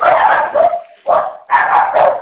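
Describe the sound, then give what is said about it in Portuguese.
Dogs barking down a phone line: several loud, harsh barks come in quick bursts with short gaps between them, and no one speaks. “Eita, que aí tem bastante cachorro.”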